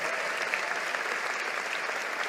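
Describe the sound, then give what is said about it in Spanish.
Applause from a church audience, a continuous, even patter of many hands clapping together, fairly faint and without talk over it. “Vamos, si lo crees, dale un aplauso al Señor.”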